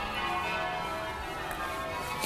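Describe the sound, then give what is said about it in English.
Bells ringing along a town street, a continuous, loud wash of sustained metallic tones that rings steadily through the whole stretch without pause. “See, the bells are going again.”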